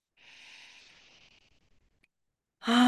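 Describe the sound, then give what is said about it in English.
A slow, deep breath in during a guided relaxation exercise: a soft, airy inhale lasting over a second, then a short silence before a voice begins speaking. “So we're going to take a deep breath in.”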